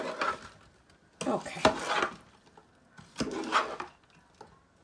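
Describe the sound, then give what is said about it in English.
A mixture being tossed and scooped in a bowl, with three separate bursts of scraping and clattering, each about a second long, separated by brief pauses. “tossing, tossing. You know how to toss, right? You scoop and whoop up into the air. You just want to give it a good mix.”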